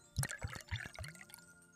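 Liquid is poured into a glass, with a few soft gurgling glugs followed by a short, gentle trickle, all fairly quiet.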